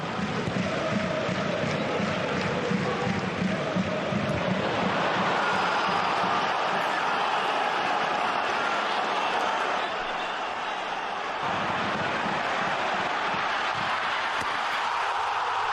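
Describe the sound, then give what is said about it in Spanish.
Football stadium crowd at Mestalla cheering a goal, a dense, sustained roar that swells into a louder burst of cheering partway through and stays strong until the end. “Este es el sonido de Mestalla.”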